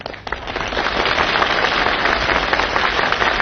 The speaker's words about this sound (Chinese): 你听观众的掌声，掌声如雷呀